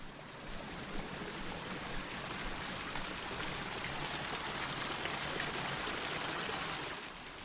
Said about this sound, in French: Ces grandes jarres de terre qui servent traditionnellement à conserver les sauces de la cuisine coréenne comme le doenjang et le gochujang ont été transformées en fontaines d'eau avec des trous au milieu de leur